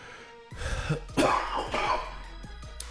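A person coughing in a few harsh, throaty bursts in quick succession, fairly loud, with a throat-clearing rasp and no talk.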